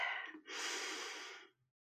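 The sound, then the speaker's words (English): A person taking a deep breath: a short breathy rush, a brief pause, then a longer, steady airy intake lasting about a second before it stops, soft and heard alone. “Take a nice deep breath”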